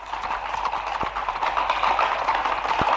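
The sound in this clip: Hoofbeats of a cavalry regiment's horses galloping in pursuit, a rapid, steady clip-clop that continues without pause, moderately loud and with no voices.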